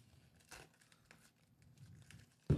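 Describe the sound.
Packing tape is torn off a package, with faint crinkling and tearing scratches that end in a louder, sharper rip.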